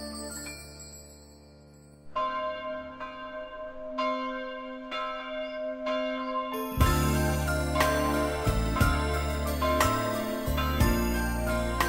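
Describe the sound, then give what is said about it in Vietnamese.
Church bells ringing: several separate, resonant strikes with long decays, then a louder, denser peal over sustained low tones. “với ba hồi chuông vọng về liên tiếp sớm trưa chiều”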